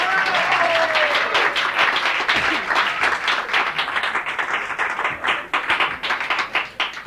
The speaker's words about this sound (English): See, ordinarily I would walk all the way downstairs, go all the way to the bathroom, and then see if everyone was still clapping